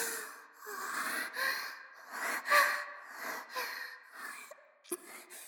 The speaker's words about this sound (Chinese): 深呼吸，深呼吸。